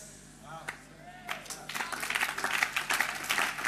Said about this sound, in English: Stop the clapping.